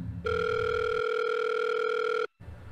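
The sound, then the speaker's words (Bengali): A telephone ringback tone on a call that goes unanswered: one steady, bright tone holds for about two seconds, then cuts off abruptly. A low rumble sits beneath it at the start. “এরপর কয়েকবার phone করলাম কিন্তু ও phone তুলল না”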